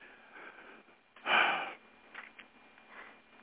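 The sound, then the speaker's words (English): A single yawn, one swelling breathy burst of air lasting about half a second that rises out of faint background hiss, then fades back to quiet. “excuse me, a yawn.”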